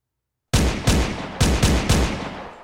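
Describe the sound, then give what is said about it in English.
Gunfire from police pistols, rifles and automatic weapons aimed upward: five loud, booming shots after a brief silence, irregularly spaced, each leaving a decaying tail that overlaps the next. “They're shooting at us! Pistols, rifles, and even automatic weapons were firing up at us.”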